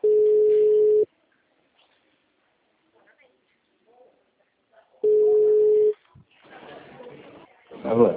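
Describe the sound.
Telephone line tones follow the dialing of a call: two steady, mid-pitched one-second beeps about four seconds apart with silence between them, then a person starts talking.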